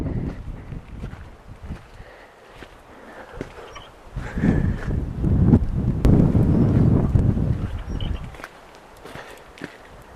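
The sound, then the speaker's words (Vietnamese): Wind blowing through an abandoned American ghost town, buffeting the microphone in rough, rumbling gusts that build to a loud stretch mid-clip before easing, with a few footstep-like thuds and no talk. “Nghe tiếng các bạn. Gió thổi.”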